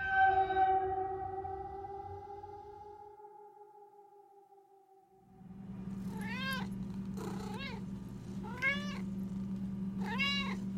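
A cat meowing for food, first one long drawn-out meow that slowly falls and fades away, then after a short pause four shorter rising-and-falling meows over a steady low hum.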